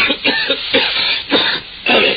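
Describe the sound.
A man coughs and clears his throat out in the fog, with several rough, harsh bursts in an uneven rhythm, separated by short pauses.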